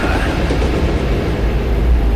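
A departing train as a sound effect: a loud, steady rolling rumble with heavy low end and a broad noisy wash above it, continuous throughout without distinct beats.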